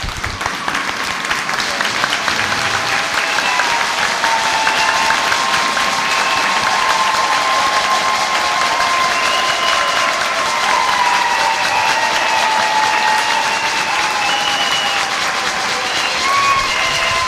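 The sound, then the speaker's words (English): Church audience standing and clapping for the Lord, loud sustained applause that keeps up, unbroken and dense, for the full seventeen seconds. “You stand up now and you clap to the Lord for the victory of the cross, for the power over principalities and powers and demons. Stand up and clap for the Lord.”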